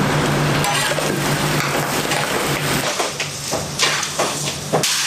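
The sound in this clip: Meat stir-fried directly in caramelized sugar without hot water gives a steady, loud sizzle. Scraping and stirring strokes come through more clearly toward the end.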